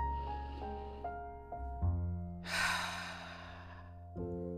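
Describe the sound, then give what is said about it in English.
A deep breath during a guided relaxation exercise, one short, breathy swell of air heard over soft, sustained music tones that continue before and after it. “let's start by inhaling deeply and exhaling fully.”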